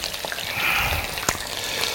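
Oil sizzles and spatters in a pan where fish is being cooked for pil-pil sauce. A steady, rushing hiss is broken by one sharp pop partway through.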